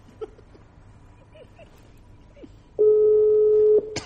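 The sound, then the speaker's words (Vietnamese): A telephone dialing a number: a few faint, short tones, then a loud, steady tone held for about a second that ends in a sharp click. “Đang gọi. Sao nó nghe vậy? Đang quay số. Nó đang quay cái số.”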